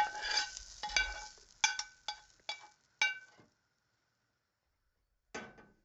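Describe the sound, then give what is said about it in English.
Fried vegetables being moved from a frying pan into a bowl, heard as a series of sharp metallic clinks and scrapes with decaying rings, then a pause before one last clink. “Okay, veggies are fried up just perfect. Let's get them into a bowl or a plate so that we can get our eggs on the move.”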